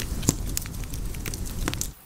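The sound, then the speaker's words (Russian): Campfire flames crackle as embers are blown on, a steady hiss broken by a few sharp pops, continuing evenly until it cuts off just before the end. “Джурабаев дует на угли. Пламя костра поднимается выше.”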